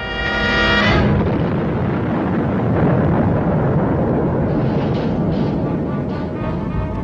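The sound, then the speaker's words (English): A rocket launching after a countdown: a loud, sustained, rumbling roar that fills the whole clip, with a brief tonal sound at the very start. “No rocket can rise anywhere in the world. 4, 3, 2, 1, fire!”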